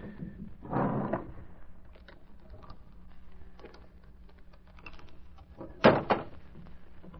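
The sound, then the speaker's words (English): A safe door being opened in an inner office: a muffled scraping burst near the start, faint scattered clicks, then a sharp mechanical clunk toward the end, with no talk. “Open the safe, anyway.”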